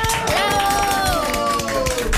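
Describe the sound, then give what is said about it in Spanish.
Applause from children and adults in a radio booth: scattered claps under a drawn-out voice that slides downward in pitch. “¡Bravo! El aplauso.”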